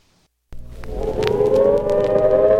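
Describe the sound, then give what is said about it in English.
A civil defense warning siren for an imminent nuclear attack begins abruptly after a brief silence and winds up into a loud, sustained wail whose pitch rises slowly. “The sound you hear is a recording of the warning siren in case of an imminent nuclear attack.”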